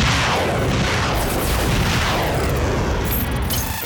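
Weapons open fire in a loud, dense, unbroken roar of blasting that runs the whole time, with no separate shots standing out.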